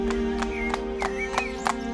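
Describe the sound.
A horse carrying two riders, a boy with an old man seated on its croup, clip-clops in a steady walking rhythm. Evenly spaced hoof strikes sit over a sustained low tonal hum.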